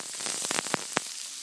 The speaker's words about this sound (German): Das sind die Paprika in der Pfanne zum Andünsten.